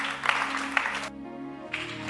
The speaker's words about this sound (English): Clap your hands. Let's welcome BG to close us.